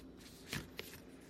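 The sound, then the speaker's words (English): A tarot deck being shuffled by hand: two brief, soft riffling bursts of cards, quiet and close together. “So I am just shuffling my deck here, and then we will pick a card.”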